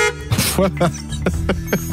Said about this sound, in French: Oui, j'ai sorti les bruitages. L'enfant s'amuse. Non, mais je me suis dit, tiens, klaxon, voilà.